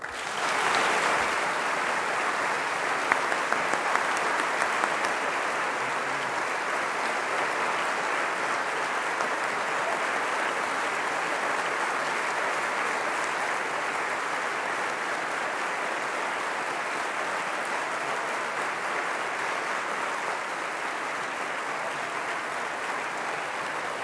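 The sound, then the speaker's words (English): Sustained audience applause welcoming the 16th president of Goshen College, a dense, even wash of clapping that starts abruptly and carries on at steady strength for over twenty seconds without voices. “Ladies and gentlemen, help me welcome the 16th president of Goshen College, Dr. James E. Brenneman.”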